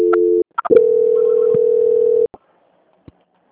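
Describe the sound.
Telephone line tone during a call transfer: a steady mid-pitched tone breaks off after a moment, a few clicks follow, then the tone holds for about a second and a half and stops, leaving a couple of faint clicks.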